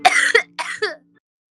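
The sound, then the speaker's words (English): A person's coughing fit produces four harsh, raspy coughs in quick succession, paired in two short bursts, followed by silence. “I have such a coughing fit.”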